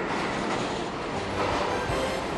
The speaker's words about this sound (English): From Brooklyn to Queens, from the Bronx to Manhattan, the subway gets us there.